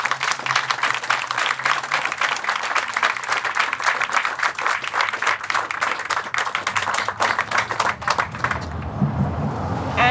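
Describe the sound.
Sustained audience applause greets a speaker at a Forsyth County gathering, a dense, steady wash of many hands clapping for about nine seconds before cutting off near the end, leaving a low rumble.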